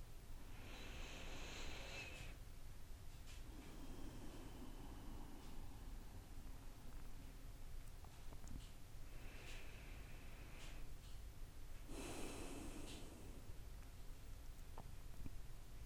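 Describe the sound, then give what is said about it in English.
Slow, deep breathing during a guided meditation: a few long, airy breaths spaced well apart, faint against a steady background hiss, with no talking. “So we will breathe, we will become present, and we will honor this moment that we're in right now. So let's breathe.”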